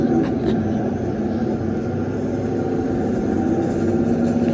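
Steady, unbroken engine drone from a large vehicle being driven out of a campground at the start of a road trip: a dense low rumble that holds an even loudness throughout.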